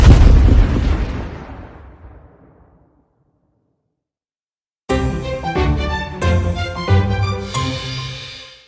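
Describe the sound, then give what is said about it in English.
A loud explosion-like blast as five blasters fire at once and blow a villain apart. The burst strikes hard and decays over about two and a half seconds into silence. After a gap, a dense, loud passage of layered tones begins. “All five of them fire at once, hitting Dysor dead on, blowing him to pieces.”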